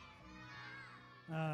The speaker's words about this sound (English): Ready on the count of three. We're going to yell out a name in this place. I'm pretty sure he's going to come.